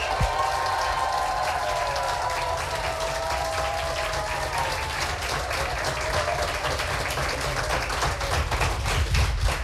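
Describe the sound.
An audience at a competition event applauds loudly on cue. Dense, continuous clapping runs without pause, with some cheering voices early on.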